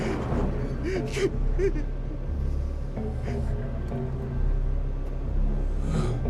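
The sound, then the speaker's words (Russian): A young man sobbing in a car, with gasping, shaky breaths and whimpers over a steady low engine rumble. “Черри переводит взгляд на всхлипывающего Джеймса.”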